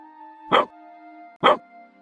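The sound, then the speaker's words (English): A puppy gives two sharp, loud warning barks at the floorboards, evenly spaced about a second apart over a steady low electronic hum. “The puppy lets out a series of sharp, warning barks.”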